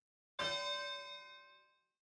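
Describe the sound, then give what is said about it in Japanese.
A single bell strike marks the start of a fight in an arena, one bright metallic clang with dense ringing overtones that fades smoothly over about a second and a half, fairly faint overall. “始まりの鐘が鳴ったね。”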